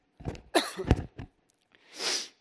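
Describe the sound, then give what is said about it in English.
Coughing from a person speaking: a few short, harsh, irregular bursts close together, then a pause and a softer, breathy rush of air. “About to cough, sorry.”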